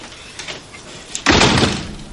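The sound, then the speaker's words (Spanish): A house door swings shut with one sharp, loud bang. A short, noisy rumble follows the bang, and a couple of faint knocks come before it. “Entra en su casa y cierra la puerta.”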